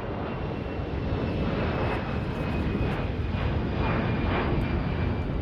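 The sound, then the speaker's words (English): An aircraft flies overhead on a flight path over Brisbane, making a broad, sustained engine roar. The roar stays loud and steady from start to finish, with no voices. “are intended to reduce the impact of plane noise”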